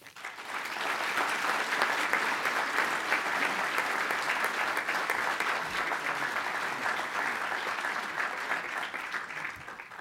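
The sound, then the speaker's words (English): Steady audience applause welcomes a lecturer at a Virginia Historical Society talk. Dense, even clapping holds at a constant loudness for the full ten seconds. “So please join me in a warm VHS welcome to Bruce Venter.”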